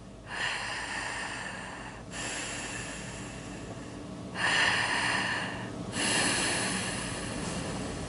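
Long, steady breaths from a breathing exercise, a few extended airy inhalations and exhalations, each a couple of seconds long, heard alone without talking.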